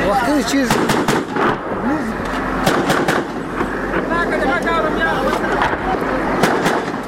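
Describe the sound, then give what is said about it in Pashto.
Gunfire between police and militants on a front line 200 metres west of a main bazaar: many sharp, loud shots crack out at irregular intervals throughout, over a constant rumbling din, with a voice talking through it. “د عمومي بازار لویدیز لور ته په 200 متر کې د جنگ لومړی کرښه کې د پولیسو او وسلوال ترمنځ ډزې روانې دي”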